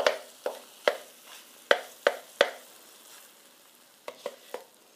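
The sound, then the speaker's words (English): Eggs with a browned bottom, flipped in a pan and nearly done, frying with sharp pops and spits of hot oil that come in a scattered series over an otherwise quiet background. “Oh my goodness, my eggs have such a beautiful like brown char on the bottom. I've just flipped them in the pan. They are just about done.”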